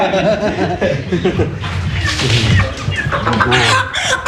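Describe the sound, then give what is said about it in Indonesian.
Javanese chickens clucking, a loud, continuous run of short, choppy clucks and squawks with an uneven, chattering rhythm. “Nah, ini ayamnya ya. Ini ayam yang dipasang untuk ayamnya, ayam Jawa seperti ini.”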